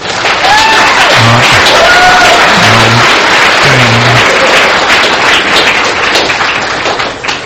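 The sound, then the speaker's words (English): An audience at an evening speaking event gives a round of applause, a loud, dense burst of clapping mixed with some cheering that eases off slightly toward the end. “And she should get the round of applause.”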